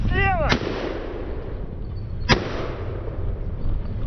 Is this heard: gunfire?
yes